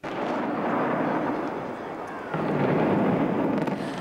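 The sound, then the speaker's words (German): A deep, roaring rumble from the explosive demolition of a large hotel building near an airport, built in 1974, is sustained throughout and swells louder partway through. “2001 wurde der Bau dann gesprengt, genau heute, vor 25 Jahren.”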